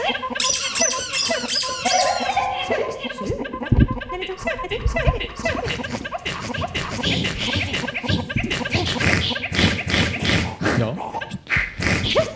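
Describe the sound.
Squeaks from a squeaky toy crocodile, many sharp high-pitched chirps and squeals in quick, uneven bursts, mixed with scratchy rubbing noises.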